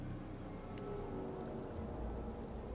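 Rain falling outside, a steady, dense hiss of drops that holds at an even level throughout, with no voices over it.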